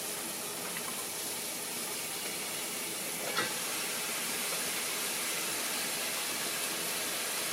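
Soft, steady sizzle of diced carrots, onions and celery cooking in a pan for soup, a continuous faint hiss with one brief click partway through.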